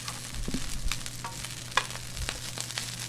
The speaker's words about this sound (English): Okay, can you toss in those peppers right now?